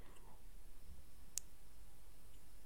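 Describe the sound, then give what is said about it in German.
A computer mouse gives a single short, sharp click against a quiet, faintly hissing background. “Ich habe die Maus wieder angefasst. Die Maus.”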